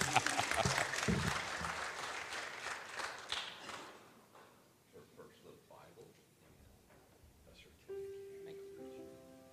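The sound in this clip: Applause from a church audience: broad, loud clapping fills the first few seconds, then thins and fades to scattered claps and murmur, before a steady sustained tone enters near the end.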